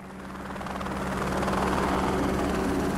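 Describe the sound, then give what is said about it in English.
A helicopter ferries an energy contractor's equipment out of a halted plateau work site in southern Utah. Its steady, heavy rotor thrum and engine drone grow louder over the first half, then hold strong. “That's the sound of energy contractor Western GECO's equipment being ferried out by helicopter.”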